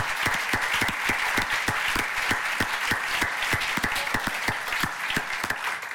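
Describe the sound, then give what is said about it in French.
Audience applause for the administrators who organised a forum: dense clapping with many sharp individual claps standing out at a fairly regular beat, sustained evenly and without voices. “je voudrais vraiment qu'on les applaudisse, l'ensemble des administrateurs du CNDPF pour leur implication dans l'organisation du forum.”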